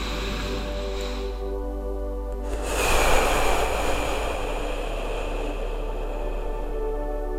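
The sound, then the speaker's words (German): A single slow, deep breath into the belly during a guided breathing exercise swells up and fades over a steady, sustained tonal drone. “Und jetzt nehmen wir noch gemeinsam drei tiefe Atemzüge tief in den Bauch hinein, um dich wirklich zu erfrischen.”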